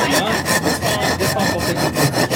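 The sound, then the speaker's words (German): A file rasps back and forth on a Ytong aerated concrete block while lettering is cut into it, producing many rapid, evenly paced gritty strokes in a steady rhythm. “Bei den missionsärztlichen Schwestern konnte man am Frieden feilen. Es galt, aus einem Ytongstein den Schriftzug Frieden herauszuarbeiten.”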